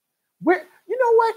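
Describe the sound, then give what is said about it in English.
An unhappy dog being bathed lets out two short whimpering barks, the first rising then fading, the second a longer whining yelp. “If you can hear Nerd Soul Light in the background, he's a little unhappy because he's getting a bath.”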